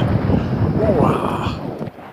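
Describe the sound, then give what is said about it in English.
Wind buffeting a microphone while walking into cold wind outdoors, a loud, steady low rumble that drops off sharply near the end. “It's a lot colder walking into the wind. Hope it's not messing with the audio too much.”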